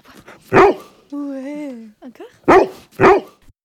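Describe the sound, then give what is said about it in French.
Three loud, short barks from a police assistance dog that comforts crime victims, the first standing alone and the last two following close together, with quieter sounds in the gaps. “c'est un chien d'assistance. On l'a appelé chien de confidence.”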